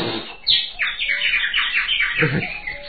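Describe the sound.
A nightingale sings a quick run of bright, high chirps and trills at moderate loudness, with a faint low murmur underneath.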